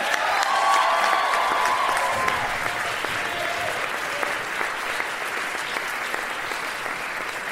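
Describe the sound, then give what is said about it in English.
Audience applause greets the Pitch Black Brass Band at a live show: dense, sustained clapping from a crowd, loudest at the start and tapering slightly while staying steady, with no voices on top. “Please put your hands together for the Pitch Black Brass Band.”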